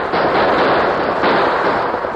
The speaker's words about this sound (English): The premature explosion at the gap threw the rustlers into a panic.